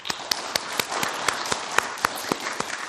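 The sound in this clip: Audience applause welcomes two speakers to a lecture with presentations. Brisk, steady clapping runs throughout, with sharp individual claps standing out from the dense patter. There is no talk.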